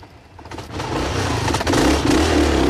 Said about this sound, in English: Curtis and Kate roar off on the motorbike